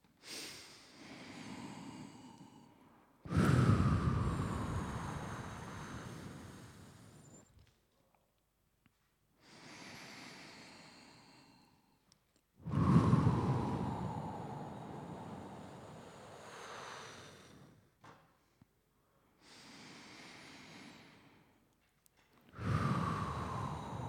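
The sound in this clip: Slow, deep breathing during a breathing exercise: long, breathy whooshes, with three strong, loud breaths each trailing off and alternating with softer, quieter breaths in an even, unhurried rhythm.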